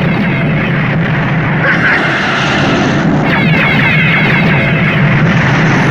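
Space-fighter guns blasting during a space battle against raiders, buried in a dense, continuous roar of engines and explosive noise that stays loud throughout.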